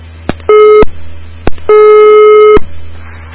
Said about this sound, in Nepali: कोही हुनुहुन्थ्यो हाम्रो टेलिफोन सम्पर्कमा, उहाँसँगको सम्पर्क टुटेको छ।